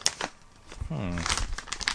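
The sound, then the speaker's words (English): Popcorn bag being torn open: crisp crinkling and tearing of the bag, with a voice talking over the rustle. “Let's get to the popcorn here. Forget all this sharing crap. How do we open this up here?”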